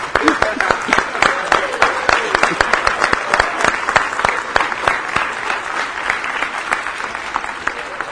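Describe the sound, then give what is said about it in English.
A standing ovation at a church gathering honoring a couple married 70 years: dense, loud audience applause with many overlapping claps, sustained at an even level from start to finish. “That's worth a standing ovation for. Let's stand and congratulate them.”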